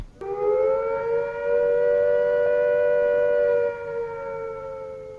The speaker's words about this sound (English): If attack is imminent, you will hear the attack sound like this.